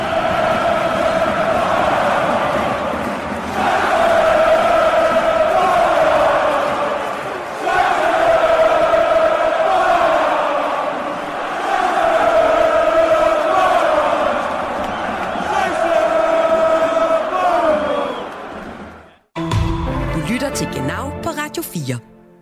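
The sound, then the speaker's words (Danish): FCK football fans chanting "Scheiße Bayern" at a match: a loud massed crowd chant repeating in phrases of about four seconds, broken off near the end by a harsher clattering noise. “Men jeg kan da i hvert fald høre, at FCK-fansene har lært et ord tysk til kampen i dag og synger Scheiße Bayern.”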